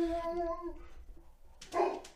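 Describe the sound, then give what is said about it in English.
A large dog barks: a drawn-out, tonal bark opens, then a short, louder burst comes near the end after a quieter gap. “that's a giant dog. Yeah. That is a dog. His bark is even scarier.”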